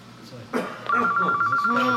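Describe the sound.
A telephone rings for an incoming caller, its trilling electronic tone starting partway in and continuing steadily while people talk over it.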